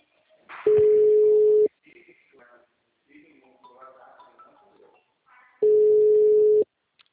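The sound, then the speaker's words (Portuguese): Busy signal on an outgoing phone call: two long, steady mid-pitched tones, each about a second, separated by a few seconds of people talking quietly. “só que eu tô ligando no celular dele. O número está ocupado.”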